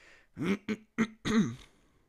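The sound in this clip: A small, low burp in four short voiced bursts over about a second and a half, with silence after.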